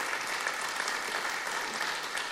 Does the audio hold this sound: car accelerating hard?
no